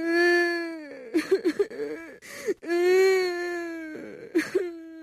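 A child cries in a corner of a room, a high wavering wail broken into sobbing bursts with short gasping pauses, loud and alone.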